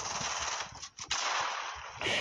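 Video game gunfire: dense, continuous bursts of noisy shots that briefly break off midway and then resume at full loudness.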